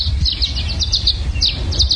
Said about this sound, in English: what you're hearing here are violet-green swallows